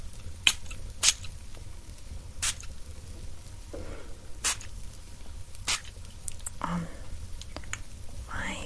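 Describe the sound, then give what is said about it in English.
Perfume is spritzed onto blankets in several short, soft hissing bursts, with faint rustling of fabric between them. “I just spray this, just a couple spritz.”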